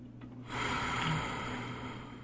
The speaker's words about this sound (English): And hold, and a full breath in and out.